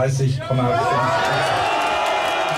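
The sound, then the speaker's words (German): A crowd cheers and calls out at an AfD election-night party in an event venue by Lake Schwerin, celebrating the SPD's poor result. A loud, continuous blend of many voices, with speech running over it. “Das ist, wie gesagt, der Jubel über das schlechte Ergebnis der SPD bei der AfD, die in einer Event-Location bei einem Schweriner See feiert.”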